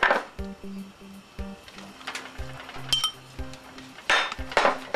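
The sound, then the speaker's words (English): A utensil stirs mushrooms and peppers in a pot, giving irregular metallic clinks and taps with short scrapes between them and a louder cluster of clinks near the end. “Give it a stir so it'll mix in with everything. And I'm ready to add my mushrooms. And my peppers.”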